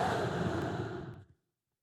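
A man imitates breathing out onto people: one soft, breathy exhale lasting about a second that tapers away into silence.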